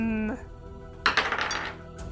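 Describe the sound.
Dice are rolled for a constitution save during a tabletop role-playing game. After a brief voice, a short clatter of rapid clicks and rattles tumbles for under a second and then settles.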